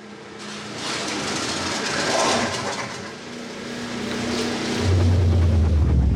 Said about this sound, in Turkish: Motora bir şeyler oluyor. Eyvah. Sanırım motor bozuldu.